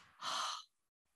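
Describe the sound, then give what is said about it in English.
A breathing exercise: a faint, short breath through the nose leads straight into a longer, louder airy inhale, which then drops away to near silence. “It's a short, long breath through the nose. So let's just practice that together.”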